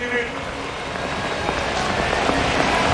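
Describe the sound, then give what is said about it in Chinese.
Rain falls steadily on an outdoor athletics stadium during a high jump competition in Lausanne, a dense, even hiss of drops that holds at a constant level throughout. “下雨影响运动员的表现，也影响场地内所有的器械，包括场地的条件。”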